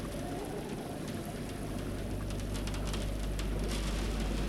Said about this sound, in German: Der Regen klatscht gegen die Scheibe.